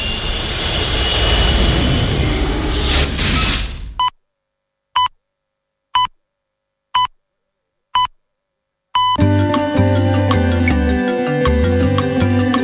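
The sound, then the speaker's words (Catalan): A spaceship takes off with a loud, rumbling engine roar that cuts out abruptly. Five short, evenly spaced beeps follow in silence, then a dense, bright tonal sound. “Sigueu puntuals o ens enlairarem sense vosaltres. Pugeu a la nau i cordeu-vos dels cinturons. Doncs tornem al planeta Terra.”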